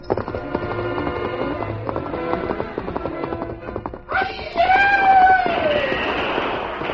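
A horse gallops into the woods with steady, rhythmic hoofbeats for several seconds, then gives a loud whinny that falls in pitch and fades toward the end.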